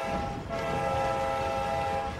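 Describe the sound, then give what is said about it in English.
A train crossing a long bridge over a calmly flowing river, heard as a steady, loud rumble beneath sustained, horn-like tonal drones that hold throughout. “As the train crosses a long bridge spanning a calmly flowing river, it slows to a halt.”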